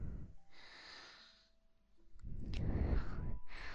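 Heavy breathing from a young boy lying awake at bedtime: a few loud, rough breaths with snorting, sighing edges, separated by a quieter gap.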